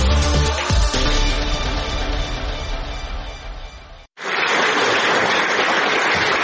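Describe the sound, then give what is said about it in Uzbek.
Loud, dense applause rises from a full house at the Ilhom Theatre after a performance of the play Xilvatdagi qizlar. It fills the final two seconds after a brief silence and follows a different, tonal sound. “Anshlag va Guldiroz qarsaklar.”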